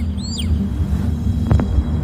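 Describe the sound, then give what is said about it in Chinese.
Golden eagle chick calling: a single brief, thin, high call near the start, faint above a steady low rumble that continues throughout. “另一边，金雕雏鸟发出期待的叫声，是父母归来的信号。”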